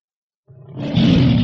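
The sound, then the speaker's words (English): A tiger roars once after a brief silence, a deep, rough growl that swells quickly to a loud, sustained roar and holds to the end. “What's this? It's a tiger.”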